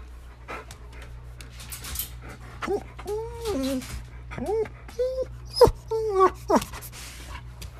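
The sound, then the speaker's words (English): A dog whining to be let outside gives several short, high, wavering whimpers and yips with bending pitch, clustered in the second half over a low hum. “My dog, when she's whining about going outside.”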